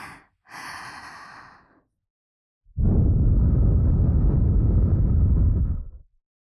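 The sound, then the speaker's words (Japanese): Breath is blown softly into a baby's ear by a mother: two short exhalations, a pause, then one long, rushing blow that holds steady for about three seconds before stopping. “こうやっていっぱい吐息をかければ”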